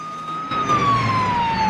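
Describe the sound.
A police squad car's siren in pursuit during a chase: a loud, steady wailing tone that slowly drops in pitch, over a low rumble of vehicle noise.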